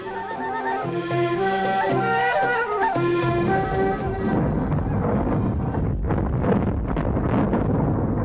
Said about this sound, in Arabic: اللي سمعناه دلوقتي ده صوت تفجير الديناميت داخل النفق.